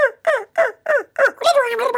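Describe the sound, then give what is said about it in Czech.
A man imitates a turkey gobbling with his voice: five short, clipped warbling calls in a steady rhythm, then one longer, continuous wavering gobble. “To je Krůta. A to byl Krocan, to byla Krůta, to druhé.”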